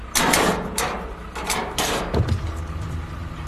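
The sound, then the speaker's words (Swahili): A door being opened for a teacher, heard as a few scraping, clattering bursts followed by a low thump, with no voices. “Haya sasa, simama hapo kando nimfungulie mlango mwalimu Julieta.”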